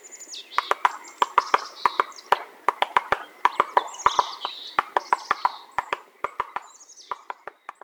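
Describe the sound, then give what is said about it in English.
Rapid, uneven hammering of a black-backed woodpecker striking a tree trunk to dig out beetle larvae: many sharp, dry knocks in irregular bursts, with high bird chirps mixed in. “Here's the sound of a black-backed woodpecker whacking away on a tree, digging for beetle larvae while gripping the trunk with its little 3-toed feet.”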